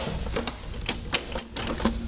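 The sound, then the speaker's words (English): A Betamax video recorder ejecting a tape gives a few crisp mechanical clicks and ticks spread over a moment, fairly quiet and evenly paced. “Compare ejecting a tape on the Betamax to the VHS. First, watch the Betamax.”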